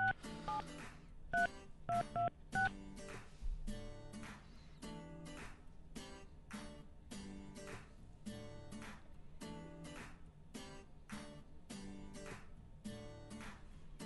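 Faint touch-tone keypad beeps as a telephone number is dialed again after reaching voicemail: a quick run of a few tones at the start, followed by a steady, rhythmic pulsing that continues throughout.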